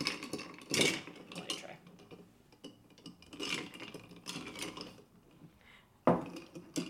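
A bar spoon stirs a Negroni cocktail in a glass, running along the bottom with soft scraping and swirling, broken by a few louder clinks and knocks.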